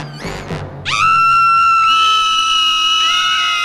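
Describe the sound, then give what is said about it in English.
Three women scream together, a loud, high-pitched, sustained shriek that sweeps sharply upward at the start and then holds steady, with voices layering into a piercing chorus. “All three of them scream.”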